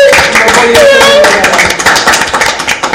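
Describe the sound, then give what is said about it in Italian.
Crowd applause, dense and continuous throughout, fading a little toward the end, with a voice audible above the clapping. “Un applauso,”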